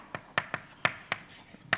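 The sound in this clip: Short, sharp taps and strokes of writing as a partition function equation is written out: several distinct knocks in an uneven rhythm, with no voices.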